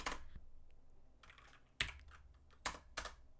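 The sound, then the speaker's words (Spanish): A computer keyboard that is malfunctioning and typing on its own clatters with scattered light key clicks, punctuated by several sharper, louder keystrokes. No voices are present. “Ya mi teclado ya hace lo que quiere, ya escribe aquí.”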